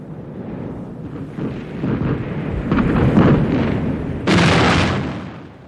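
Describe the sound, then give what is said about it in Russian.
Explosions of volcanic bombs as a radio play sound effect: a deep rumbling roar that builds steadily, topped by a harsher, brighter blast late on before it fades. “Святые угодники, что это? Кто-то открыл по нас пальбу? Капитан Синглтон или... Это представление! Это вулканические бомбы.”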